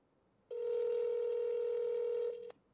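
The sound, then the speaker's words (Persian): A telephone line tone sounds during a live TV call-in: a single steady, low-pitched electronic tone lasting about two seconds, then a short, slightly quieter tail before it cuts off. “خب باز دوباره داریم تماس میگیریم.”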